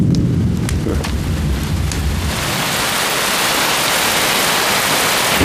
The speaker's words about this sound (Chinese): 这么大的雷啊，吓我一跳。你看，要下雨了。